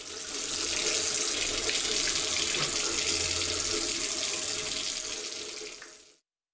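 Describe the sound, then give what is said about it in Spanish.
Water runs steadily from a tap while teeth are brushed: a continuous, loud hiss and splash that holds even for about six seconds, then cuts off abruptly when the flow stops. “Cerrá la llave mientras te cepillas los dientes o lavas los platos.”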